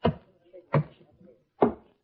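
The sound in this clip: A heavy, damp suitcase with sand on it is opened: three separate sharp clunks, like latches or the lid giving way, spaced apart with quiet between them.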